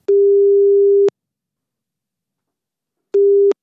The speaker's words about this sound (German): habe sie für diese Folge angerufen